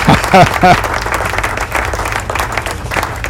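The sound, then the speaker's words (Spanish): A soundboard applause effect plays as loud, sustained crowd clapping, with a short voiced sound at the start before the even wash of clapping carries on to the end. “Y entonces, si yo subo esto, y subo esto aquí y doy aquí, ahí están los aplausos.”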